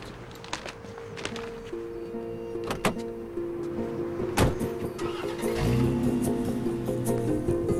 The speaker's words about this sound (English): As he drives off in a metallic convertible BMW, she follows him.